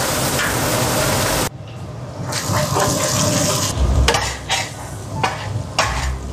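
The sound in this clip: Scallion and ginger hitting a hot pan and being stir-fried: a loud, steady hiss gives way to a crackling sizzle, broken by a few sharper scraping stirs.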